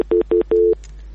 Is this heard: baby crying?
no